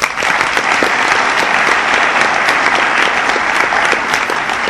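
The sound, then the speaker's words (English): Audience applause at an Al-Anon gathering: dense, sustained clapping from many hands at a steady, even loudness throughout. “It's a lot of work to put these together, so you guys have done a great job. Let's give them a hand.”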